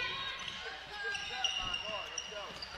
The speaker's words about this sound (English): Dribbles to the right side.